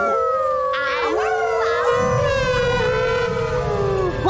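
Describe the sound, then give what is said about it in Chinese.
Howling into a microphone at full volume: loud, sustained, wavering high-pitched howls with sliding pitch that overlap and continue without a break, like an animal howl. “扩音机准备好了，麦克风打开，音量调到最高，可以嚎叫了。”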